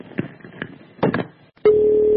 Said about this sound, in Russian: Я считаю, сколько раз вы себе позвоните. Я считаю уже. Сколько раз вы будете номер набирать?